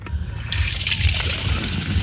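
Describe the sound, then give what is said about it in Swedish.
Water pouring into a water bottle from a drinking-water supply during a water main outage: a continuous splashing trickle with bright spattering over a low, pulsing rumble. “häller upp vatten i sin vattenflaska och lägger den i korgen till rullatorn”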